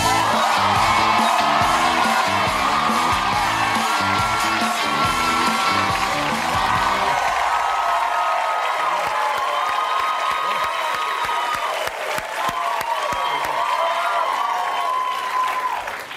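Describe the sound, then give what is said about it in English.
A comedy show's studio audience applauds loudly to welcome guest Kareem Abdul-Jabbar. Whoops and cheers rise out of the sustained clapping, which holds at full strength for the entire stretch. “Thank you very much. That's a great reception.”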